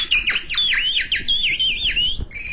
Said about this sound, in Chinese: 我一进来就听见这鸟叫。